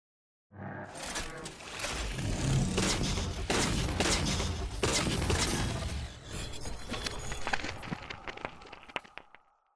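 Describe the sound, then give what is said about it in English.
Futuristic binary rifle firing in a first-person shooter video game: a loud, dense stretch of crackling, booming energy bursts that thins out toward the end into a few sharp clicks. “And this is what the actual binary rifle sounds like from Halo 4.”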